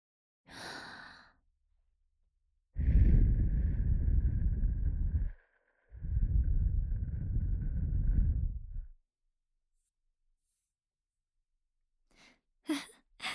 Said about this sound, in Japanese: 不意打ちじゃ。お耳かきはお耳ふうって終わるのがお約束だからの。